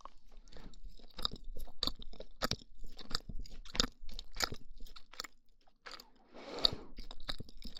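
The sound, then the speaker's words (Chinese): Chewing of soft, fluffy pumpkin toast, with many faint, crisp bites and moist mouth sounds in an irregular rhythm and a brief pause midway; no voices. “我发现这个麦克风录吃东西的声音，真的比那种双耳麦克风好听。”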